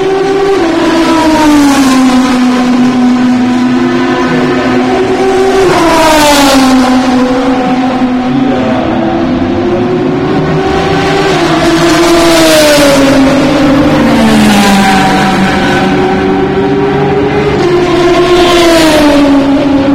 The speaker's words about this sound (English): Corvette leaving the pit. Dirty, dirty noise.